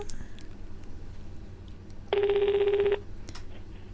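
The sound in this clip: Ringback tone of an outgoing telephone call: one buzzy, warbling ring burst of a little under a second, rising out of a steady low background hiss, with no talk.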